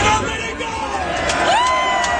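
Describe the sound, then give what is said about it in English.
A crowd at a political rally in Florida cheers and whoops, with shouts and babble of many voices forming a loud, continuous roar. “That's a pretty good crowd.”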